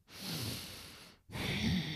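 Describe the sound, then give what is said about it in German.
Breathing: a long, airy breath drawn deeply, then a brief silence and a second, equally full breath with a slight rasp, close and steady in loudness. “Dann lassen wir mal kurz einen Atem hier kurz drin.”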